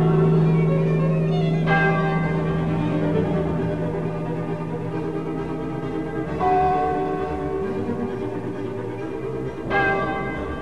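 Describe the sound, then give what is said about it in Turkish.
Old church bells ring in a few slow, resonant strikes, each leaving a long humming decay over a sustained low drone. “Eski çanlar acı acı çaldı.”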